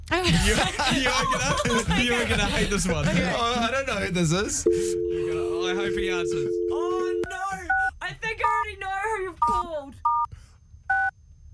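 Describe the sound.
Telephone call tones as a number is placed: talk at first, then a long steady tone, followed by a run of short keypad beeps at varying pitches.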